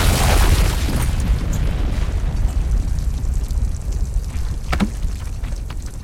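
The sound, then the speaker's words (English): A loud explosion booms with a dense, low rumbling roar that stays steady for several seconds and is strongest at the start. “He exploded. Yes, he did. Well, now that's the sixth patient you've blown up this week.”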